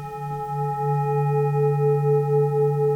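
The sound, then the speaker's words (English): A Tibetan singing bowl rings with a sustained, steady tone rich in layered overtones, wavering slowly as the tones beat against each other, heard alone. “That was the sound of a Tibetan singing bowl, an instrument whose origins go back to before modern civilization.”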